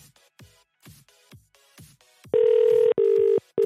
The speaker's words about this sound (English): Ugh. It's freaking me out with that British ringtone. What the hell?